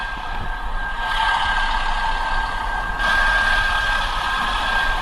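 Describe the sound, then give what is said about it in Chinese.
A mechanized floating-debris cleanup boat works the Yangtze at Wanzhou during flood season. Its engine gives a loud, constant drone with a steady whine on top, unbroken and without speech. “正值长江汛期，万州江面上的漂浮物增多，机械化专业轻漂船正在江面上轻漂作业。”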